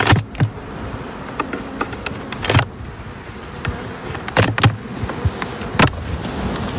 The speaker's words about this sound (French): On se met derrière la ruche, là, justement, pour éviter d'être dans le passage.